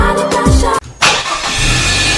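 A car engine runs at a steady, smooth hum with no talk, briefly drops away near the middle, then returns and carries on evenly.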